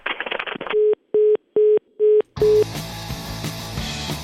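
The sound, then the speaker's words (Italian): A telephone busy tone after a call is hung up: five steady, evenly spaced beeps after a brief burst of voice, then music begins. “Di fronte alla parola andrangheta si chiude il telefono.”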